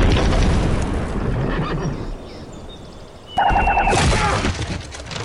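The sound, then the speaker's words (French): Boomerang ballista firing and crashing: a broad, rushing roar for about three seconds that eases off, then a sudden loud crash with a bright, ringing, shatter-like tone that carries to the end. “J'ai un modèle de baliste boomerang. Soldat, armé, portée 650, pointage en tête à 15 degrés, azimut 54 est. Tirez.”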